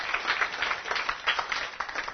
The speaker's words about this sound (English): Oh, we've got a winner. Come on up. Give her a round of applause.